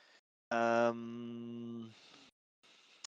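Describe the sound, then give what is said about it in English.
A person voicing a character's groan during a tabletop role-playing game: one drawn-out, low, voiced moan lasting about a second and a half, loud at first then easing, with brief talk before and after. “then she starts groaning beside you. Is everything okay?”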